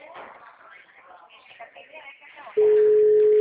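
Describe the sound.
A telephone ringing tone sounds on a call, with people talking first. Then a loud, steady single-pitch tone cuts in and holds to the end.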